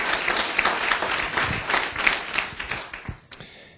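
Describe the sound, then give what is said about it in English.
A church audience applauds after worship, a moderate mass of hand clapping with uneven swells that thins out toward the end into a few last separate claps. “Come, let's give the Lord a good hand, please.”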